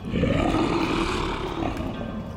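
A lion roars, a deep, loud, rumbling sound held steadily for about two seconds, with no talk over it.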